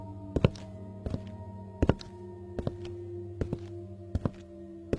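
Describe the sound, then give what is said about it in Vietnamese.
Slow, heavy footsteps fall at a steady measured pace indoors: faint, dull thumps spaced about a second apart over a low steady hum. “Những tiếng bước chân uỳnh uỳnh không chỉ vang lên ở đoạn bếp, có đôi khi nó vang lên khắp cả căn phòng. những tiếng bước chân chậm rãi, từng nhịp một.”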